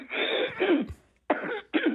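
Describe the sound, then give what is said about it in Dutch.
Someone clears their throat in a few rough, raspy bursts, a longer harsh one followed by two shorter ones after a brief pause. “Even wachten, ik moet mijn keel schrapen.”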